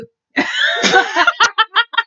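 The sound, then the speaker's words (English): A burp from someone drinking apple juice, heard as a rough, voiced belch of about a second, followed by a run of short, rhythmic vocal bursts. “I burped, I told you. The apple juice is making me burpy.”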